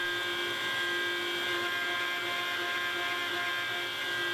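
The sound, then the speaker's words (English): A CNC machine mills a part, giving a steady, loud mechanical whine with a dense buzzing hum underneath. The sound holds even and continuous throughout, with no talk. “There, I first machined the holes that align with my hole grid so I can use two bolts to hold it down, and then I let the machine go to work.”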